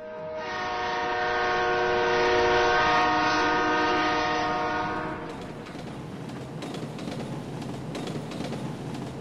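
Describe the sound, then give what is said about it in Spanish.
A train slowly leaving a station sounds a steady horn blast for about five seconds, then settles into a lower rumble with the rattle and clatter of rolling cars. “El tren salió lentamente de la estación.”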